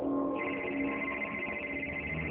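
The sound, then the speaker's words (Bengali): A mobile phone ringtone plays as a faint, sustained electronic melody of steady tones over a low background hum. “আরে মায়ের phone.”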